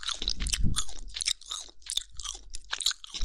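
Chewing food with crisp, crunchy bites, a run of irregular crackling munches and chomps heard alone without talk, loud and close to the mouth.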